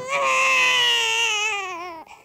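A baby cries in one long, loud wail that holds steady before dipping slightly in pitch and breaking off, ending with a brief faint whimper.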